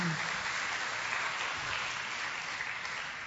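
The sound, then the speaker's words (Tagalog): Church audience applauding the Lord at a preacher's invitation, a continuous, even patter of many hands clapping at a moderate, fairly quiet level that tapers off slightly at the end. “Okay, palakpakan nga natin ang Panginoon, mga kapatid.”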